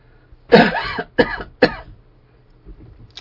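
Three harsh throat-clearing coughs come from a tickle in the throat, the first longest and loudest, followed by a few faint, softer rasps.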